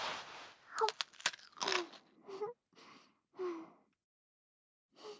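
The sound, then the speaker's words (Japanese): Crisp crunching bites into a fresh cucumber: a cluster of sharp snapping clicks, followed by several softer chewing bursts with pauses between. “きゅうり、いただきます。”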